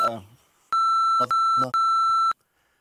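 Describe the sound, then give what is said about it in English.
Three steady, high-pitched censor beeps run back to back, each held for roughly half a second, with brief bits of speech before and between them. “I can't say because I have to beep it if I say”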